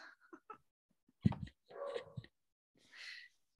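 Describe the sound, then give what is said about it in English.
A dog gives faint whimpers, whines and a short yip, quiet sounds separated by silent gaps. “Excuse my dog, y'all.”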